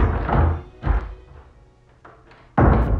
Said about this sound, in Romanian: Deodată s-a auzit clanța.